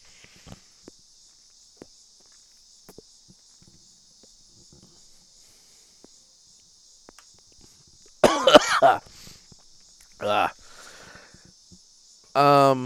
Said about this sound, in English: That was, I coughed mostly because I just didn't quite get enough out before I did that.